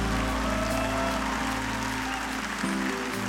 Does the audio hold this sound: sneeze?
no